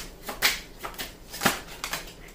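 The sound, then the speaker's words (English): Playing cards being shuffled and dealt onto a deck, heard as a few crisp, papery riffling bursts in an uneven rhythm, alone without talk. “Can we get some more cards on the deck, please?”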